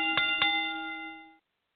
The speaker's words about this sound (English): after the bell rings